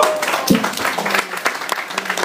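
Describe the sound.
Audience applause at a talk about comics marking fifty years of Spider-Man: fairly loud, irregular clapping with distinct sharp claps standing out, uneven in intensity throughout.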